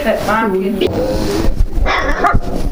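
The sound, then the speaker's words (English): A puppy from a newly born litter whines and yips in high, wavering tones, mostly early on, while people talk over it throughout. “I've got a puppy. Come here. Can I have a puppy? Hello. Come here. Come here, you little puppy.”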